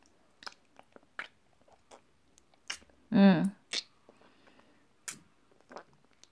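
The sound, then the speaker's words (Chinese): Chewing over breakfast: scattered, crisp, crunchy bites and mouth clicks arrive as short separate bursts, with a brief voiced murmur in the middle. “我还在吃早餐”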